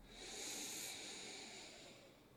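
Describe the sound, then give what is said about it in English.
A slow, deep breath is drawn in through the nose as a soft, airy hiss that swells, holds briefly, then tapers off. It is quiet and alone, with no talk. “let's take a real deep breath. The deepest breath you've taken all day. In through the nose, fill up.”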